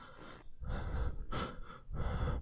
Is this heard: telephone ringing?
no

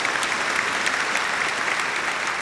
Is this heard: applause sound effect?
yes

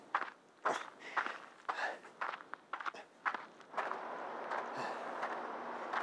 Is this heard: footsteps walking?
yes

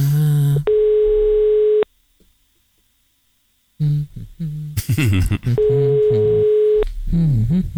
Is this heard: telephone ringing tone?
yes

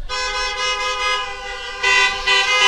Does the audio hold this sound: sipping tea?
no

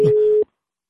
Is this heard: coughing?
no

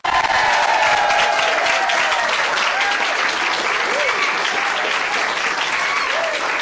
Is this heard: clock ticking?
no

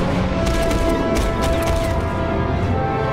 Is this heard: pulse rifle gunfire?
yes

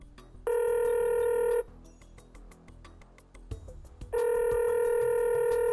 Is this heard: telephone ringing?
yes

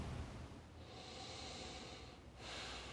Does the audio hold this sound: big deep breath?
yes

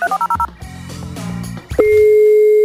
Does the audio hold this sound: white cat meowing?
no

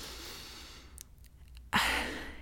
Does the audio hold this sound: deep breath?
yes

